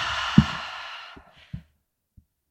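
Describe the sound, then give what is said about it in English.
A deep breath during a guided meditation breathing exercise: a soft, airy rush of air fading away over about a second, followed by a few faint, isolated knocks in the quiet. “start with a deep breath in through the nose and an exhale out through the mouth.”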